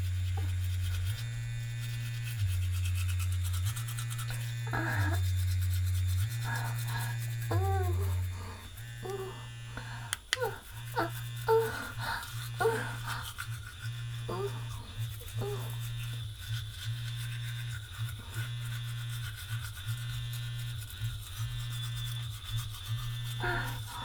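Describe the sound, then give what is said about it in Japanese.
A firm-bristled toothbrush scrubs the surface of teeth in many short, rough rubbing strokes, most clearly in the second half, over a low steady hum. “今磨いてるのは固めの歯で、歯じゃない、歯ブラシで歯の表面を磨いてるイメージです。”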